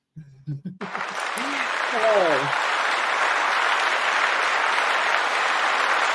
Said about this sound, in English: That was the longest applause I've ever received.